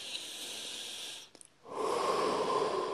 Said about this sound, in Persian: فرض کنید که ما در حال انجام حرکات سبز هستیم. نفس عمیق میکشیم،